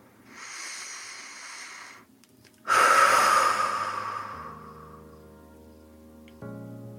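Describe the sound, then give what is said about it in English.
A person takes a deep breath: a soft, airy inhale, a pause, then a louder, longer breathy exhale that fades out. Low sustained tones enter near the end. “So, my dears, let's all take a deep breath.”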